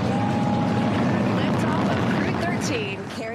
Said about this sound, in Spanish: Ignition and liftoff. Go Falcon, go Dragon, and go Crew 13.